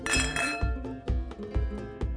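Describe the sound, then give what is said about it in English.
Glasses clinking together in a toast, with a few bright, ringing clinks. “Whatever happens in Sevilla, stays in Sevilla. Cheers.”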